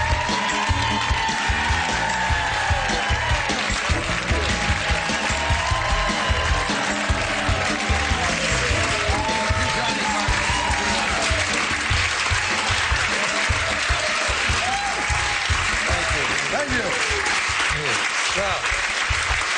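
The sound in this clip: Sustained, dense applause from an audience welcoming the Smothers Brothers comedy duo, a steady, even wash of clapping that holds at a loud level for the whole stretch without a clear break or fade.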